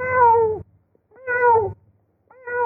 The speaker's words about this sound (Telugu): అయ్యో పిల్లి వచ్చిందే, ఇప్పుడు ఎలా, కోడి పిల్లల్ని ఏమైనా చేస్తుందేమో.